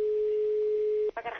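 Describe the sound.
A telephone dial tone sounds as a call is placed: a steady, unbroken mid-pitched hum that holds for about a second, then cuts off as a voice begins speaking.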